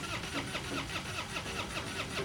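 A truck engine cranks over and over without catching; the truck is dead even though it had been running fine hours earlier. The starter produces a steady, rhythmic chugging throughout, with no voices.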